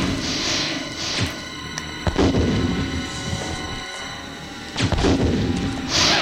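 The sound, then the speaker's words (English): Bazooka blasts striking a spider boss in a Resident Evil game: a few heavy, booming explosions break out over a constant rumbling game background, with no talk. “Blown its legs off from the bazooka and it's dead.”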